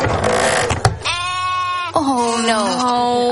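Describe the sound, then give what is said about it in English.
Sheep at a market bleat in two long, quavering calls, one after the other, following a brief noisy rustle at the start. “Quiero una oveja pequeñita. ¿Una oveja pequeñita? Sí. Bueno, pues tengo como 20.”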